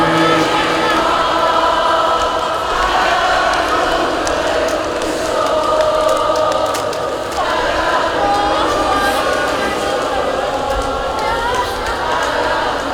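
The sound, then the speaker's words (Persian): A crowd of women chants together in a sustained, melodic chorus, with voices rising and falling over a constant murmur of background crowd noise at a steady, fairly loud level. “این صدای زنهاست داره میاد،”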